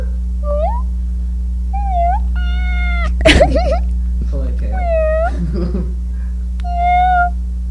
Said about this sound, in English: Say meow, kitty.